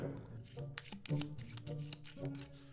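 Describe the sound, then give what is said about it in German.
Playing cards are shuffled for the party board game That's Not a Hat: soft, rapid riffling and papery flicking in several bursts, under voices talking. “Aha, sie mischt Karten.”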